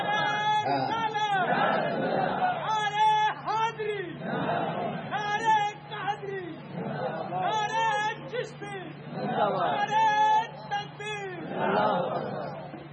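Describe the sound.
A crowd at a devotional gathering chants a long religious slogan, many voices calling out in loud, repeated waves over a low steady hum.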